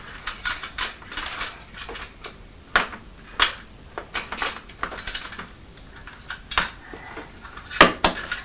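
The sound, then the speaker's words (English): Teaspoon being put into a tin with a lid, once used to hold money: many small metallic clicks, clinks and rattles in an irregular, fairly loud run. “Are you putting the teaspoon in the tin where we had the money? I think the spoon's a little bit too big, aren't they, to go in there with the lid closed?”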